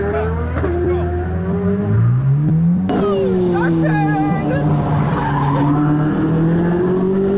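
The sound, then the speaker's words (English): A Corvette roars at about 132 mph and skids through a turn. The loud, continuous engine note climbs in pitch, then holds steady over a harsh, sustained tire-skid wash. “132 miles per hour in the Corvette. Yeah. In the Corvette.”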